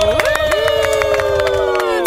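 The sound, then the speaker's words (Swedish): Studio guests in a radio studio clap quickly and rhythmically, with many brisk claps running beneath a loud, sustained pitched sound that glides upward at the start. “Ni stämmer in i applåden där. Ja, man vill ju ge lite ljudeffekt bara.”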